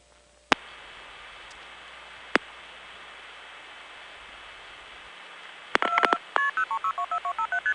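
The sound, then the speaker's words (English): Telephone touch tones on a phone line as a caller dials a number, with one key held down for a long tone. A steady tone runs under hiss, broken by a couple of sharp clicks, then a quick run of short beeps. “Right before the Pittsburgh customer's number spills out, you can hear a long touch tone too. That's because he just happened to be holding it down.”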